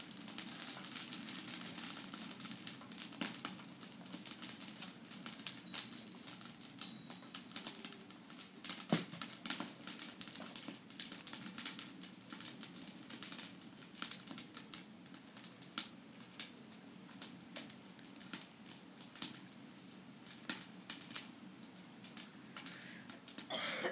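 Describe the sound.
Crackling and popping of an outdoor fire burning cut-down bush branches, with many irregular sharp snaps over a soft hiss, faint and continuous throughout.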